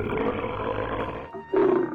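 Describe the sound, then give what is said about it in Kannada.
Lion roaring as a story sound effect for a lion attacking a hunter in a forest: a sustained, rough, growling roar briefly dips, then bursts back louder and harsher, with no talk. “ಸಿಂಹ ಒಂದು ಅವನ ಮೇಲೆ ಆಕ್ರಮಣ ಮಾಡ್ತಂತೆ”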